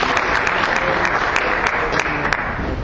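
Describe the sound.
An audience applauds to welcome a speaker at a teach-in on technology and globalization: dense, steady clapping from many hands, loud and sustained throughout.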